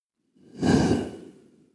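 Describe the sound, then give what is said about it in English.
A single deep breath drawn in slowly, a soft, breathy rush of air that swells over about a second and then fades away, heard alone without talk. “Let's go ahead and take a nice deep breath in.”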